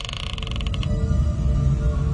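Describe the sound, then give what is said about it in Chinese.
A door creaks open with a rapid series of squeaky, pulsing creaks in the first second, then a steady low rumble continues. “道门打开咗嘅，黑掹掹，一个人都冇咁奇怪”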